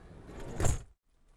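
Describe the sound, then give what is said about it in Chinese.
A sliding door closing in the rain, with a rushing slide that swells to a loud peak and then cuts off sharply into near silence. “啊，好，关门了关门了。”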